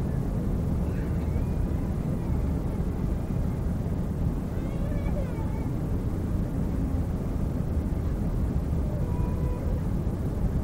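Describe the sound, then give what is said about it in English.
A steady, loud roar from an airplane on approach to Kennedy Airport. It flies low over water with its wing flaps extended, and the dense rumble holds unbroken throughout. “Oh, I would say about 80 feet above water. Coming in, very smooth flight, wing flaps extended.”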